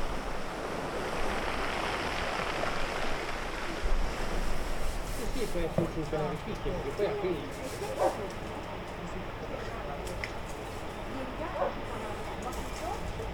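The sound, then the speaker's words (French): Sea waves roll pebbles on a shore in a continuous loud, hissing wash that rises and falls slightly. Faint voice-like sounds surface briefly in the middle. “Les galets roulent sous la mer.”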